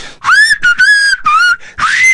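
A person whistles through the lips without fingers, producing loud, clear phrases with gliding, wavering pitch. Several bursts are separated by brief gaps.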